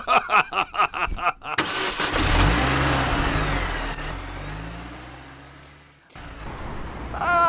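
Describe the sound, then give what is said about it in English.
A car engine cranks in a quick run of short bursts, then catches and runs with a steady, droning rumble that swells slightly before cutting out near the end. A faint engine hum follows. No voices are heard. “Haven't we been driving a long time, Bruno?”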